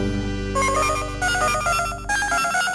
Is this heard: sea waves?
no